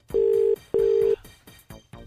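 Telephone dialing tones as a radio host places a call: two steady, mid-pitched electronic beeps, each just under half a second, separated by a short gap, followed by faint clicks.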